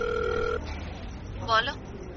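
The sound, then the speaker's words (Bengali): A mobile phone rings while a call waits to be answered: a faint, steady two-pitch ring tone holds for about half a second, followed by quiet background and one brief, faint burst of sound. “অনেকক্ষণ ring হওয়ার পর ওপাশ থেকে কেউ receive করল সেটা।”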